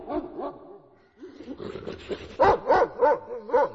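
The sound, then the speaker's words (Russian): Deep, loud barking from a giant grey sharp-eared dog at dusk: a few lower whining yelps come first, then a run of several strong, rhythmic barks. “В ответ на этот свист в сумерках загремел низкий лай.”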